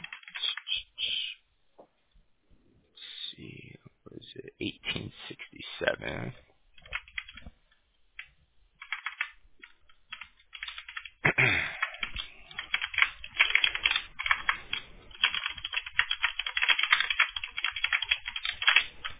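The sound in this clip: Quick computer keyboard typing as text is copied and pasted into a message, coming in irregular bursts of rapid keystrokes with short pauses, then growing denser and steadier toward the end.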